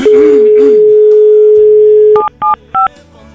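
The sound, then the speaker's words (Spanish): A telephone call being redialled: a steady dial tone holds for about two seconds, then stops for three short, evenly spaced dual-tone keypad beeps. “Vamos a marcar de nuevo. Ahí ya estamos marcando.”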